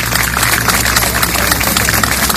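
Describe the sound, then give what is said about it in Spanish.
Applause at a flag ceremony, a loud, dense and continuous wash of many clapping hands with no breaks. “Ahí está, el aplauso.”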